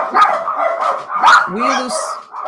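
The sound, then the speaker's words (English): Several dogs barking and yipping in an agitated outburst, under a man's talking. “those are my dogs having a meltdown. There must be somebody out there.”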